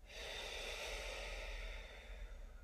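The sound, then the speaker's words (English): Deep breathing in and out, a soft, airy rush of breath that holds steady for about two seconds, dips briefly, then continues; quiet and alone, with no voices. “Just some deep breathing in your life can really, really bring you back into your body”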